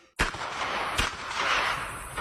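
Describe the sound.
Gunshots ring out at a shooting competition: two sharp, loud cracks about a second apart over a dense, continuous roar of noise, with no voices.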